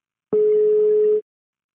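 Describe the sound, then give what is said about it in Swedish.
A telephone ringing tone heard while placing a call: one steady, mid-pitched electronic beep lasting about a second, clear and alone, followed by silence. “Ska vi ringa Kristoffer direkt?”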